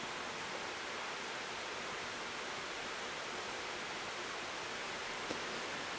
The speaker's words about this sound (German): dieses Rauschen, was ihr hier hört, ist keine Tonstörung, sondern es ist das Rauschen des Regens draußen.